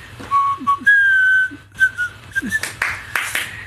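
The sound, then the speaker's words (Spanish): Someone whistling the traditional Mexican birthday song: a short run of clear, sustained notes with small steps in pitch, followed by a few noisy bursts at the end. “ya no podemos poner las mañanitas, pero sí podemos chiflarlas tal vez”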